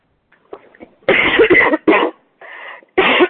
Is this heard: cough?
yes